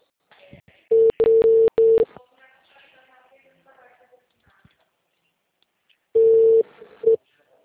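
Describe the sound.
A telephone ringback tone sounds while a call is being placed: a steady mid-pitched tone comes in a broken first burst, then a near-silent gap with faint sounds, then a second, shorter burst.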